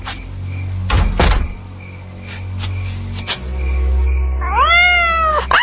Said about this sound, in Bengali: বিড়াল ডাকছে।